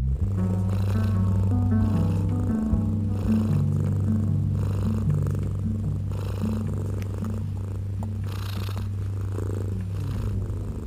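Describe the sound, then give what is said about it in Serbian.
Three tomcats lying contentedly on a high beam, purring in a low, continuous rumble that runs unbroken through the whole stretch with no voices. “Tri mačora su legla na visoku gredu, pa od zadovoljstva sve preduli predu.”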